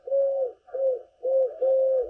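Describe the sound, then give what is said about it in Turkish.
Eurasian collared dove cooing in Istanbul: four steady, mid-pitched coos in a short series, the last two running together, with nothing else audible. “Kumru'yu da Orhan Gül İstanbul'da kaydettiler.”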